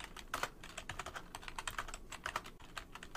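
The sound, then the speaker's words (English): Fast typing on a computer keyboard: many light, rapid keystrokes in an uneven stream, steady and fairly faint, with no talk. “so I'm going to type these out really quick so I can copy them over.”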